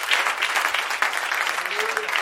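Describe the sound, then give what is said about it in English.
Audience applause at a church service, a dense and steady patter of many hands clapping throughout, with voices faintly mixed in underneath. “Yes, we can give him a round of applause, all of you.”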